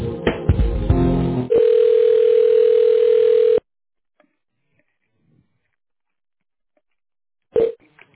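A telephone line tone plays while a call is transferred: a few quick dialing tones, then a steady single-pitched tone holding for about two seconds before cutting to silence, with a short burst of noise near the end.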